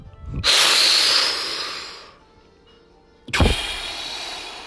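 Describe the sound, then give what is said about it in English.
A person takes a deep breath: a long, loud breathy rush, a pause of near silence, then a second shorter rush of air. No talk is heard. “Take a deep breath.”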